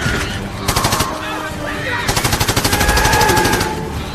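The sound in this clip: Machine-gun fire aimed at gunners from the roof of a flying shuttle comes in two rapid, loud bursts. The second burst runs longer than the first, amid dense action noise.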